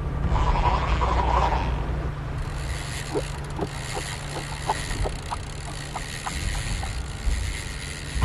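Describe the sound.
A game-show prize wheel spins and ticks through a rapid run of ratcheting clicks at a fairly even pace for several seconds, over a steady mechanical hum and noisy background.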